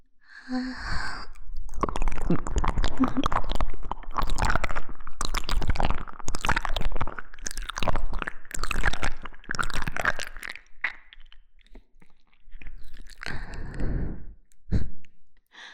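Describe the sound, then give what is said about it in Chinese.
Wet chewing and biting into flesh: dense, loud bursts of squelching, crunching mastication run almost continuously for about twelve seconds, pause briefly, then return as a few more scattered chews. “看到了吗，你的双腿已经被我嚼成了肉泥吞下去了”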